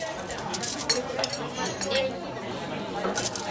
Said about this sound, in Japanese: ムースがいやもう美味しかったからいいよ、うん、半分に切ります